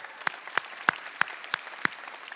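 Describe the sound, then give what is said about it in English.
Hands clapping from a church audience welcoming graduates: six crisp, separate claps in an even, unhurried rhythm, with quiet gaps between them and no voices. “let's give all those people out there a big hand.”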